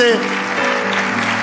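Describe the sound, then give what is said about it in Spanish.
Applause from a church audience during a worship service, a steady dense patter of clapping hands sustained throughout without pause, fairly loud and even in level. “ese aplauso es la expresión de tu agradecimiento, dale un aplauso fuerte.”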